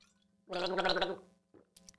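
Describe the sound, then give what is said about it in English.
A person gargling: one gurgling, bubbling burst lasting under a second, followed by a short pause and a few brief, fainter throat noises at the end. “I remember that sound. Why? Oh, at the Red Roof Inn. Just before you fell asleep, you were gargling.”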